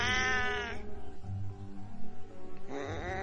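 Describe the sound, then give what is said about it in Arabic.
Strange, bleat-like cat cries, unlike an ordinary meow: a drawn-out, wavering wail at the start and another at the end, with low rumbling sounds in between. “صوتها كان غريب قوي، مش صوت قطة عادية زي ما بنسمع الصوت بتاعها.”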